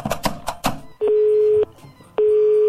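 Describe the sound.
Steady telephone tones after a call is hung up: two long, even beeps of about half a second each with a short pause between them, moderately loud, following a brief burst of voice at the start.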